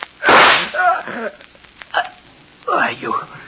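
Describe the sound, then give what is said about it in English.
A single pistol shot cracks loudly in a dramatized scene, followed by a strained voice speaking. “You shot me. The gun wasn't empty.”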